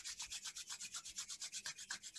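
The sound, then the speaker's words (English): Hands rubbing briskly together make a steady, hissing swish that repeats in many even strokes, with no voices. “So to begin with, I'd like you all to rub your hands together.”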